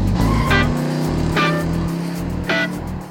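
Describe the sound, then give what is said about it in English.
A car drives off, its engine holding a steady, low drone while three brief, brighter bursts cut through. The loudness eases slightly toward the end. “I got in my car and I drove away. That was the sound of me driving away.”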